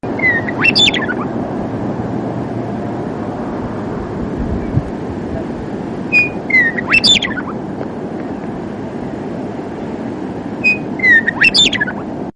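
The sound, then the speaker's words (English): Western Meadowlark song: three separate bright, fluty phrases with quick descending slurred notes, spaced several seconds apart over a steady low rumble. “It's just a plain brown bird. But listen to this voice. This is the Western Meadowlark.”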